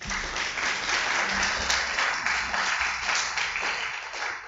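Applause from the audience at a live poetry reading as a poet is welcomed, a dense, continuous patter of many hands clapping that stays fairly even from start to finish.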